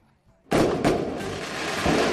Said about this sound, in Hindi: धमाका बड़ा था ना